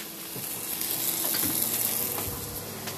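Steady sizzling of meat frying in a pan during a cooking match: a constant bright hiss runs throughout, with a few soft stirring knocks.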